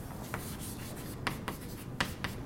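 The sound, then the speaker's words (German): Writing on a board during a physics lecture: a faint, steady scratching broken by a few sharper strokes, heard alone without talk. “Das schreibe ich Ihnen an.”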